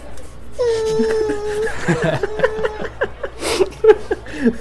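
A baby wails after being put down in a pack and play, letting out many short, rising and falling cries mixed with whimpers that stay loud and insistent throughout.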